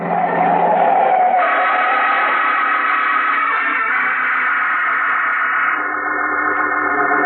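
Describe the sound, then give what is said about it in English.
A car passes on a street with a loud, continuous, wavering engine roar and squealing tones, shifting in pitch partway through and thinning out near the end. “Hey, mister, look out for that car. You're gonna get run down if you don't.”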